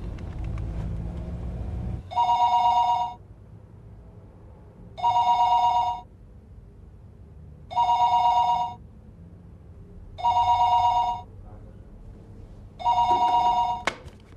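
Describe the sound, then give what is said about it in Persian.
A telephone rings while a call is placed to a home, five evenly spaced electronic rings, each about a second long, with a low rumble filling the gaps between them. “جواب نمیده. خونه رو بگیر. دارم میگیرم.”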